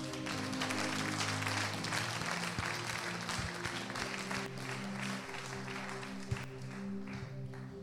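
An audience applauds during a church worship service, a steady wash of many hands clapping together over sustained low tones, holding at an even level throughout.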